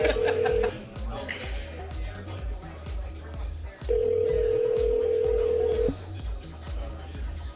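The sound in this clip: The ringback tone of an outgoing phone call while waiting for an answer. A steady ring cuts off near the start, then sounds again as a burst of about two seconds, with people talking over it throughout.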